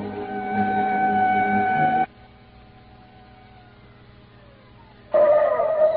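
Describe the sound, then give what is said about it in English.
A car engine drones at a steady pitch for about two seconds, drops away to near quiet, then loud engine noise returns near the end. “Come on, give her the gas”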